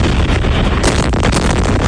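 Explosions from US strikes on Iran at night in the Middle East sound as loud, rumbling, noisy blasts. Dense low booms and crackling bursts run on continuously, with no voices.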